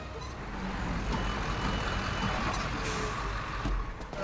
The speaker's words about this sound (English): Thomas drives the cargo truck through the desert. Wellington and Pete sit beside him. They stop.